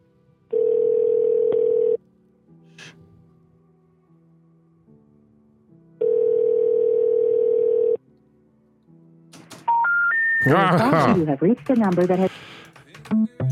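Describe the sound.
Telephone line tones heard while ringing numbers that turn out to be disconnected. Two long, steady tones are separated by quiet gaps, then a rising three-step tone leads into a busy, warbling stretch.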